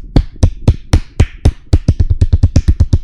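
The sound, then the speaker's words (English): A person imitates repetitive clapping with many sharp, crisp slaps. The claps start at a steady, moderate beat, then speed up into quicker, closely spaced hits. “all you just keep hearing is the”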